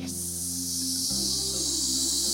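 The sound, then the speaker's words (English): A snake hisses in one long, steady, breathy stream of bright noise. It continues unbroken over a low, sustained drone. “He listened for the sound of the snake. Do you know the sound that a snake makes?”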